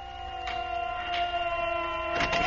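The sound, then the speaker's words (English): Air raid sirens wail over a city as a zeppelin attacks. A steady, layered tone with strong harmonics drifts slowly lower in pitch, and a few short bursts of noise cut across it. “Sister, the sirens.”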